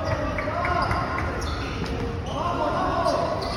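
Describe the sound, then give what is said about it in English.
Basketballs bounce on a covered court with a painted floor, repeated thuds mixed into a dense, busy background with voices. “And I literally walked towards the light. And the sound. Basketball.”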